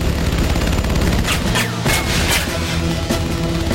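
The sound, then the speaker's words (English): Rapid gunfire in a film scene, with dozens of bullets puncturing an old motorhome as it speeds away. Loud, dense bursts of shots and impacts run over a low rumble. “They open fire on the motorhome as Bix speeds away. Oh, man. Go! Dozens of bullets puncture the old motorhome.”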